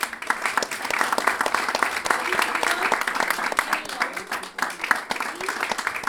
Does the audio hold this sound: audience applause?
yes

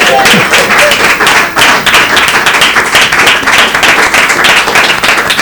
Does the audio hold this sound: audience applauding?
yes

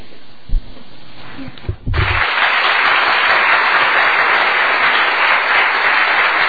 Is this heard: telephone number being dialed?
no

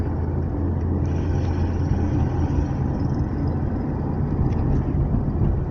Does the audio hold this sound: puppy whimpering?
no

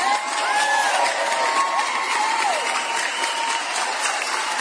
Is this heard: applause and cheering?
yes

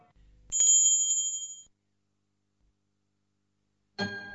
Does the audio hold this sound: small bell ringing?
yes

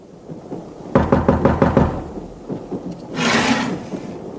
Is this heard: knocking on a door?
yes

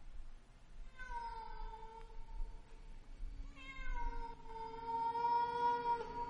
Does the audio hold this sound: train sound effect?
no

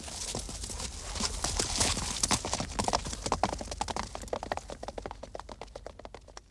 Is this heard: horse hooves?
yes

